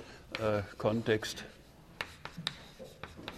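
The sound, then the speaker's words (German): Writing on a board: after a brief voice, a series of short, faint scratchy strokes and taps follows at an uneven pace. “Schreiben wir es mal drunter,”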